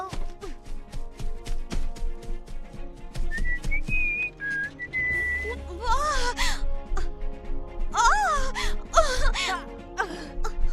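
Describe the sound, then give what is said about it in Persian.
A woman whistles a few high, wavering notes, followed by bending, wail-like tones that rise and fall, amid a busy rhythmic background of clicks and thuds. “اما چرا اینطوری سوت میزدی؟”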